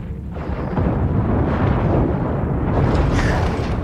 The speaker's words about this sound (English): Now a large ship just got destroyed there.